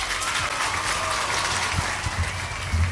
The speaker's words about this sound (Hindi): आपके लिए भी तालियां और जिन्होंने सही जवाब दिया उनके लिए भी तालियां